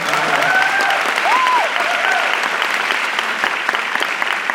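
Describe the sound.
An audience at a business talk applauds steadily, a loud, dense clapping that holds evenly for the whole stretch.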